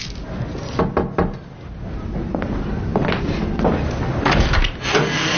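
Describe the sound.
Metallic scraping and knocking as a tin of malted milk powder is opened by hand, with a few sharp clicks and taps over a steady, rough rustle.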